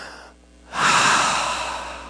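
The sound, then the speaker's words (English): A single deep breath, quiet at first, then a loud, breathy rush that swells quickly and fades gradually over about a second and a half. “I want you, while you're sitting there just now, to take a nice deep breath.”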